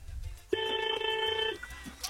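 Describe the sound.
A telephone rings with an incoming call: a single bright electronic ring burst lasting about a second. Its tone is steady and harmonic, then it stops, leaving low background noise before and after.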